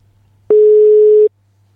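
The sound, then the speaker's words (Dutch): A single ringback tone plays while a phone call is being placed: one clean, steady beep lasting under a second, starting and stopping abruptly against near silence. “Laten, laten we hem eens gaan bellen.”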